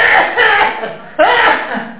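Coughing, heard as two harsh bursts: one at the very start and a second, sharper one about halfway through, with voiced tones mixed into the noise.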